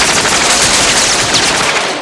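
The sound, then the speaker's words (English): Gunfire with bullets bouncing off a video screen: a loud, dense, unbroken roar of rapid shots that holds steady throughout with no pauses between rounds. “Bullets bounce off the video screen where Hauser's face flickers.”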